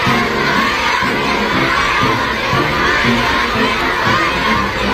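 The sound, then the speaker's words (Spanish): A crowd cheers and shouts at the arrival of the US president in China, a dense, loud, continuous roar of many voices with no single voice standing out, staying steady from start to finish. “Este es el sonido ambiente a su llegada, la verdad. Podría ser el ambiente de la fiesta de mi calle, pero háganme caso, es el ambiente de la llegada de Donald Trump a China.”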